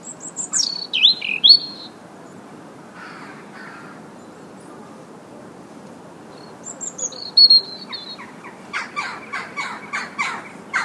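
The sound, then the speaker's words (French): Early-spring song from birds that stay through winter: a few bright, sweeping calls at the start, a quieter stretch, then more calls and a rapid series of harsh, repeated notes, all over a soft, steady background hiss. “c'est des oiseaux qui restent chez nous l'hiver. Donc forcément, au tout début du printemps, c'est aussi les premiers à chanter”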